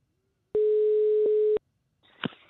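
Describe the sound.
A telephone line tone sounds while a call to a mother is placed: one steady, loud, single-pitched tone lasting about a second, then silence and a brief faint rustle and click.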